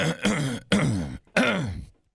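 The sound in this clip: Harsh throat clearing from a person with something stuck in the throat, in three rasping bursts of about half a second each, separated by short pauses, with the last one trailing off into silence.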